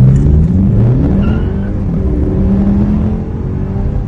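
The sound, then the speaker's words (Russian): A combustion-engine car pulls away hard from a standstill at a traffic light, its loud engine roaring and climbing in pitch as it accelerates, with the tyres briefly slipping. “Ничего специального исполнять не буду, просто старт со светофора.”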